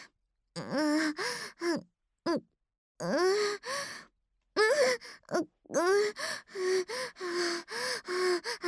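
Heavy panting, many rapid voiced gasps and breathy exhales in uneven bursts, some breaths pitched and strained, with short pauses between clusters.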